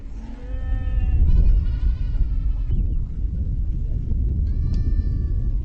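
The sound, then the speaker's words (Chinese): Livestock of nomadic herders bleat over a low, steady rumble: a few drawn-out, quavering bleats, two running together early on and another shorter one near the end. “牲口就是我们的命，我们生活中需要的一切都要靠它们。”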